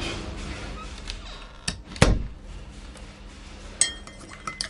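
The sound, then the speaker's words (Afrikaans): A door is pushed shut with a single solid thump in the middle, surrounded by a few lighter clicks and clinks before and after. “Maak toe die deur.”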